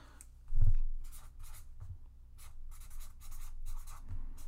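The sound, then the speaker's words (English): Handwriting as an idea is quickly jotted down, quiet scratchy pen strokes on paper coming in many short bursts, with no talking. “Hold on, let me write that down.”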